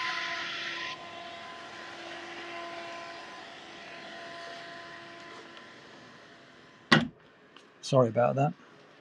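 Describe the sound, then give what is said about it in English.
A hedge-cutting machine works in parkland as a steady, droning engine with a constant tonal hum that eases slightly after the first second. Near the end it is broken by a sharp knock and a brief burst of voice. “there's somebody come to this piece of the parkland to cut hedging. I wasn't expecting that.”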